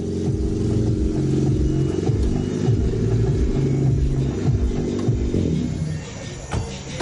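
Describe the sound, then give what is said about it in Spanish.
A white and black car arrives and parks near a bar, its engine giving a steady, loud rumble with some revving that eases slightly toward the end. “Llega el coche blanco y negro. Los chicos reparan en él. El coche aparca cerca de un bar.”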